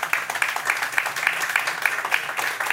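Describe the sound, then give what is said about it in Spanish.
Applause comes from an audience at a church service: a steady run of hand claps in a fairly even rhythm, moderately loud and continuous throughout. “Yo creo que en 8 semanas la primera vez que nos dan un aplauso.”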